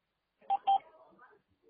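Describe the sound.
A phone keypad sounds as a number is dialled during a call with debt collectors: two short, clear dialling tones in quick succession, fairly faint, followed by low murmuring sound.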